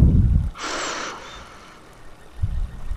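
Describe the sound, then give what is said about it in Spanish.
A deep breath drawn in through the nose during a guided breathing exercise: one steady, fairly loud airy inhale of about half a second, standing alone between soft low rumbles. “vamos a hacer igual tres respiraciones muy profundas. Inhalando por la nariz y exhalando por la boca. Inhalando.”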